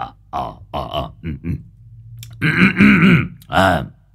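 An old man clears his throat a few times before putting a phone to his ear: a few gruff, voiced bursts, then a longer rough stretch and one final burst, fairly loud and alone.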